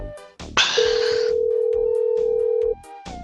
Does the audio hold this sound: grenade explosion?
no